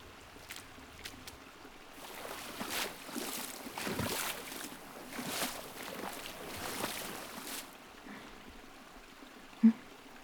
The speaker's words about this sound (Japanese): じゃあ、そこで軽く体を流しましょうか。